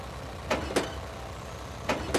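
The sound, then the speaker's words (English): A car's engine hums low and steady as it is shifted into reverse at the edge of a pool, with four short, sharp clicks or clunks standing out above the rumble. “I want you to be very still and calmly change the gears to reverse. Reverse.”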